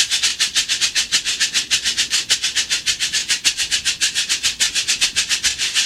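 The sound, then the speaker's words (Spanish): A chucho shaker is played in a brisk, even rhythm of many quick swishes, a bright, hissy rattle pulsing steadily throughout like a train's clatter. “Así suena el chucho.”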